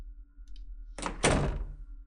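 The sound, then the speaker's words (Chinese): A door closes with a brief soft rush of movement followed by one heavy, dull thunk, alone against a faint low hum. “怎么了组长？关门。”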